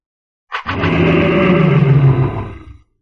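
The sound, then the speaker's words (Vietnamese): A giant ape beast lets out one loud, harsh roar that swells quickly, holds for about two seconds with a rough, growling texture, then trails off. “Hàng Lập lại lần nữa hóa thành thân chim mao cự viên, gầm lên mãnh liệt.”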